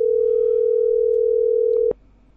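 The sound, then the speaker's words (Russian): Telephone dial tone while placing a call, a steady, single-pitched hum lasting almost two seconds before it cuts off with a brief click. “Так, набираю, пацаны.”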